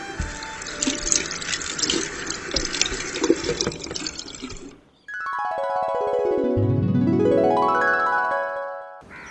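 Water runs from a tap while hands are washed, a steady splashing rush that cuts off, followed by a springy, twanging effect with sweeping tones.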